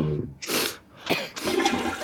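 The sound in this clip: A toilet flushes in a few rushing surges of water, each a broad hiss and gurgle that swells and fades, fairly loud, with no voices.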